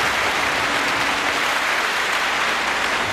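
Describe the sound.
Applause sound effect fired from a soundboard: a steady, dense wash of clapping that holds at an even level for about three seconds, with no voices.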